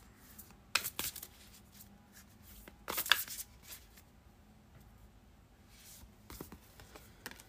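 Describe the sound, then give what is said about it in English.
Oracle cards being shuffled and pulled for a reading: a few quick bursts of riffling and flicking card noise separated by quiet stretches, soft overall and without talk. “Let's pull your three oracle cards.”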